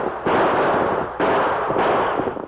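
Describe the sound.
Gunshots ring out in an Old West radio drama shootout with stagecoach-robbing outlaws: three loud, sharp blasts, each trailing into a sustained rush of noise, the first two spaced about a second apart and the last soon after.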